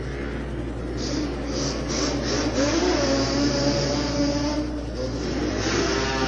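Yamaha two-cylinder Banshee ATV engines racing on a track, a steady, unbroken mid-pitched engine drone and whine holding at an even loudness throughout.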